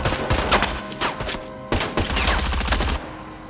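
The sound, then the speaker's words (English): Gunfire exchange in a shootout at a meatpacking plant's loading dock, with shooters behind a forklift: dense, rapid overlapping shots in loud, continuous bursts that crackle and thud without pause, with no voices. “They take cover behind a nearby forklift and return fire”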